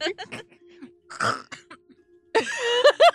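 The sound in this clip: Coughing from someone who has inhaled a piece of carrot: a few short, harsh coughs and throat-clearing bursts, followed by strained, voiced gasping sounds.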